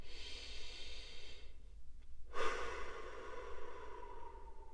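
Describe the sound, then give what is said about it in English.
A deep breath drawn in, then let out in a long exhale after a short pause; both are soft, breathy and steady, with no talking. “as I take a deep breath in and exhale, as I inhale and exhale”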